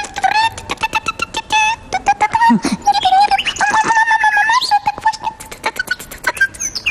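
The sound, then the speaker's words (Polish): Nightingale song in the morning: many quick, bright chirps, whistles and trills in rapid bursts, loud and busy throughout with no pause. “To śpiew słowika o poranku.”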